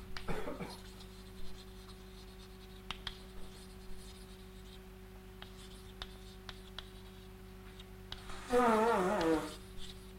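Chalk or marker strokes on a board during a maths lecture as a diagram is drawn, heard as scattered faint taps and scratches with a louder, squeakier stroke near the end.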